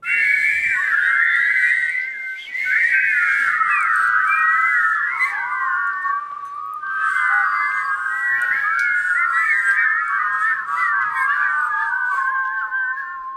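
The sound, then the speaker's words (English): Many listeners' whistling recordings are layered into one chorus, with overlapping high, wavering tones carrying a tune almost continuously and one brief break early on. “really nice job whistling, you guys. Sounding great.”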